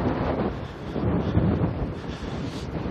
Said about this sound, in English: The wind is coming right out of the north-northwest. It's blowing my eyeballs out of my head.